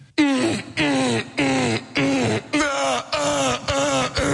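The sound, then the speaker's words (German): A voice imitates a neighbour's loud sex moaning with a rapid series of many short, drawn-out moans. Each moan is a loud vocal wail separated by brief pauses, repeating in a steady rhythm. “Das ist mein Nachbar. Der f***t jeden Abend sehr laut. Wirklich, das hört sich jeden Abend so an bei mir.”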